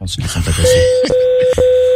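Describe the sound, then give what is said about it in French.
Beeping tones on a phone line, like Morse code: three long, steady mid-pitched beeps separated by very short gaps. They follow a moment of talk at the start. “Quelqu'un qui parle en morse là.”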